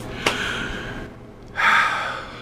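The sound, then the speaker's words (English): A 60-year-old man takes a deep breath during a stethoscope lung exam at a medical checkup. One airy, rushing breath swells up loudly after a quieter stretch of soft breathing, with no talking. “Let's listen to your lungs in the back, okay? Big breath in and out.”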